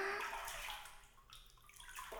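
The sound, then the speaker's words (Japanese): Water sloshing in a hot bath, a soft, continuous wash of gentle splashing and swirling, faint and steady with no voices. “しっかりと肩まで浸かって、全身がすっきりするまで入らないとダメですよ。”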